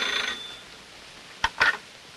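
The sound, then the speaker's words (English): A telephone answered by an aunt: a brief, faint ring at the start, then a pause and two quick clicks as the receiver is picked up. “Veronica hides her face in a pillow as her aunt answers the phone.”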